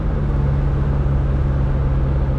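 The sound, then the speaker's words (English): A car driving, heard as a steady, loud low engine and road hum that stays even throughout with no other distinct events. “I'm driving.”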